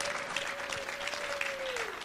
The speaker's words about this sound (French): J'aimerais qu'on puisse acclamer le Seigneur pour leur vie. Can we put our hands together for them?